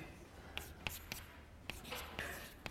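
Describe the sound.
A pen writes out a concrete example query during a lecture on tuple relational calculus. Faint scratchy strokes and several crisp taps come one after another at an uneven pace.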